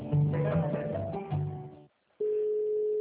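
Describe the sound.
A steady telephone line tone sounds while a call is placed. It begins after a brief silence and holds unbroken to the end, following a louder, busier stretch of sound.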